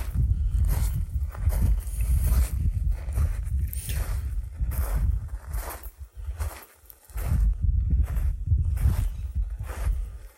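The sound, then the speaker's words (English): Footsteps of a hiker crunching through sand and dirt in a desert canyon wash on an overcast day, a steady run of many scuffing steps with a brief pause midway, over a constant low rumble. “Hiking through the sand. The dirt.”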